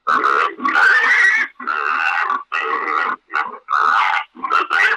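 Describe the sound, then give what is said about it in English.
Sow hysteria, an aggressive electronic hog call played from an app to lure wild boar, sounds as a loud, rapid run of harsh squealing grunts in short bursts split by brief gaps, with no voices. “This sound is called Sow Hysteria, and it's available on Convergence app, and it is a pretty aggressive sound.”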